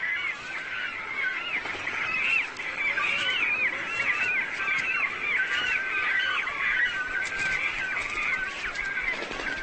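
Cormorants call noisily as they fight over nest sites at the start of the mid-spring breeding season: a dense, continuous chorus of harsh, overlapping calls that stays loud throughout, with no talk.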